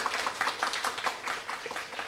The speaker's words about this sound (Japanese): 藤本さんに今一度大きな拍手をお送りください